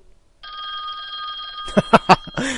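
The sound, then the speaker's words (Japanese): A black rotary telephone in a video game rings with a steady, bright, trilling bell that holds for over a second before three sharp, loud thumps follow in quick succession. “出た黒電話。”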